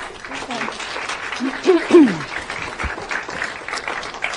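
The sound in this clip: Applause from an audience welcoming the executive director of a women's health organization to a talk: a steady, dense patter of clapping, with a few brief voices rising through it.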